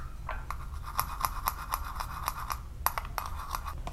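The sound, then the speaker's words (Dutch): Paint colours are mixed with quiet, rhythmic clicking and tapping, a steady run of many light knocks at roughly even intervals. “Ik ga het mengen.”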